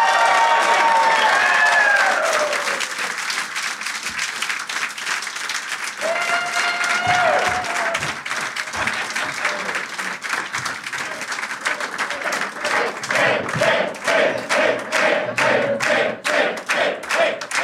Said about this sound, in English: Please give it up for Tim Dillon, Brian Malow, and Geoff Tate.